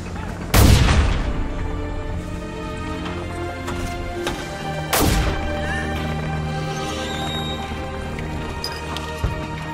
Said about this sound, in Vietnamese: Tôi dừng lại đứng xem anh em pháo binh 105 ly bắn một lúc rồi về.